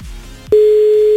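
A radio host dials a listener and a telephone ring tone sounds. After a faint low background, a loud, steady single-pitched tone starts abruptly and holds unbroken to the end.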